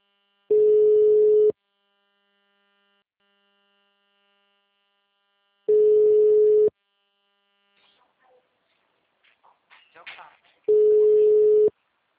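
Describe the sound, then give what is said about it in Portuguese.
Three long, steady ringback tones from an unanswered phone call. Each lasts about a second and is separated by long silences, with a few faint, brief sounds before the final tone. “Chamada encaminhada para a caixa postal. Grave seu recado agora. Não tá atendendo. Vou ligar mais.”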